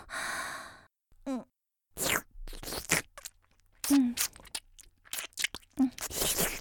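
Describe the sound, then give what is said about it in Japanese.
Wet mouth sounds of someone licking a lollipop on a stick, close and intimate, with breathy sighs and short smacking bursts scattered between pauses. “ほら見て、棒付きの飴。ちょっと舐めるね。見てて。”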